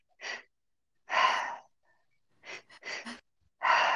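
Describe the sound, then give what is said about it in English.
Deep breathing exercise with inhales and exhales: several breathy, airy bursts of differing length with silent gaps between them, heard alone without speech. “and then we exhale. So it sounds like this.”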